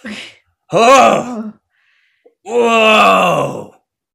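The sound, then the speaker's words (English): A human voice imitates a tree croaking and groaning in a dark, mysterious tabletop fantasy game. There is a short breathy sound, then two long, loud, throaty groans separated by a pause of silence. “As you do that, the tree begins to croak and groan.”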